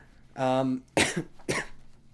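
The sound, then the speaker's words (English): A man with a dry throat coughs. A short voiced throat sound comes first, then two harsh, separate coughs with a brief gap between them. The coughs are fairly loud against a quiet background. “as I start coughing uncontrollably because I have no water in my water bottle”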